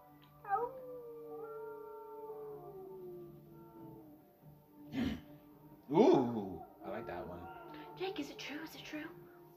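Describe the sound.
A wolf howls once in a long, drawn-out note that rises briefly and then slides slowly downward over about three seconds, followed by people talking.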